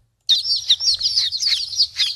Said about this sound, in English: And yes, that would be real chicks, by the way, baby chicks.